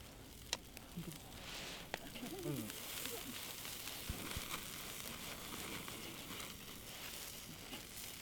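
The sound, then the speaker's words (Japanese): Meat sizzling on a grill over a crackling campfire, a faint continuous hiss scattered with sharp little pops and crackles. “ジュージュー焼いてる音とこの何て言うんですかね、焚き火の音”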